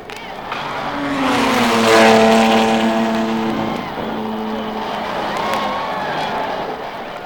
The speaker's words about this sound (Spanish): There goes Link Harris of New York in his 500-liter Ferrari. He's been clocked at close to 310 miles an hour in last month's Grand Prix in Colorado.